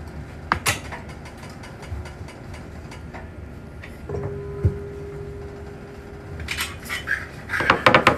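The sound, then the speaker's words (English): Chopped potatoes being pressed through a potato ricer into a bowl make metallic clicks and kitchen clatter. The utensil knocks come in bursts near the start and end, with a faint steady hum in the middle. “So we're going to go ahead and take our potatoes, our chopped up potatoes, put them in the ricer.”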